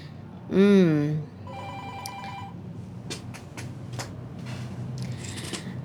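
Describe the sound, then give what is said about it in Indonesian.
An electronic telephone ringing with an incoming call: one loud, warbling burst of ringing, followed by a run of steady, higher beeping tones, over low background noise. “Sudah ada lagi nih yang nelfon. Sebentar.”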